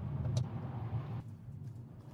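A car drives through rural Georgia countryside near Lax, by the Irwin and Coffee County line, giving a faint, steady low engine and road rumble that eases slightly partway through.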